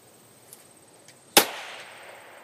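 A sharp, loud crack of a suppressor-fitted rifle fired at a paper target with a red-dot sight. It is a single shot with a short fading tail, preceded by a couple of faint ticks.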